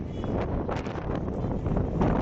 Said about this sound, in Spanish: Sí, sí, el viento, pero el viento, ¿eh? Todo vuela en buena parte de la península